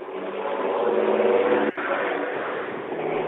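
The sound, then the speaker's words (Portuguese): A truck passing on the street, very loud: a continuous, heavy engine roar that fills the whole clip, with one brief dip midway before the rumble resumes at steady volume. “como esse que nós estamos vendo aqui na gravação, que é um caminhão passando aqui na rua, fazendo um barulho enorme, fazendo uma grande poluição.”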